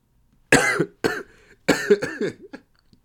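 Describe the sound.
Several harsh, loud coughs come in short bursts separated by brief pauses, heard alone with no talk.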